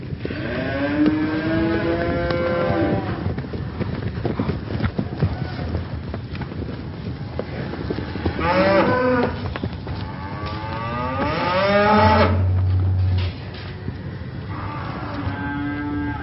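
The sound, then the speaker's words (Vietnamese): A panicked cattle herd stampedes as cows bellow in long, loud, anguished moos, one after another, over a continuous rumbling clatter of pounding hooves. “tiếng vó nệm xuống đất và tiếng kêu bi thảm của lũ bò hòa trộn làm một”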